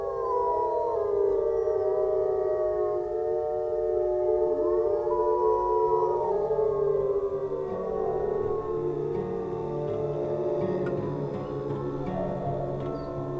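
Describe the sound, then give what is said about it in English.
Several wolves howl together to reunite the pack after splitting up on a hunt. Long sustained overlapping howls glide up and down in pitch, layered into a continuous loud chorus. “one of the wolves wandered off and sort of got lost, broke away from the pack, so helping a pack reunite, because they split up when they hunt, right?”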